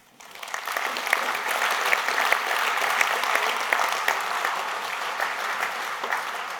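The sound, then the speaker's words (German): Applause breaks out after a speech, rising quickly to a dense, steady wash of clapping that holds for several seconds before easing slightly toward the end. “Vielen Dank für das Referat. Applaus, Dank.”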